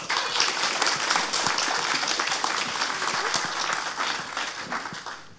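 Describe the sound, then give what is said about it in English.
Audience applause at a church service, welcoming someone up to read scripture: dense, steady clapping that holds level for several seconds and tapers slightly at the end. “So please put your hands together and warmly welcome Heidi up.”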